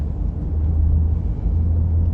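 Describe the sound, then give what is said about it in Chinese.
Low, steady engine rumble of a car being driven, a continuous deep drone that holds at an even level without clear changes in pitch. “开车先把我送到吴老师那儿”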